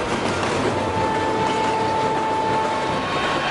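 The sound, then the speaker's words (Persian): A train runs on rails at speed, a steady, loud rumbling roar with a thin sustained whine running through it and no distinct breaks. “فقط دعا کنین سرعت قطار از 80 پایین تر نمید”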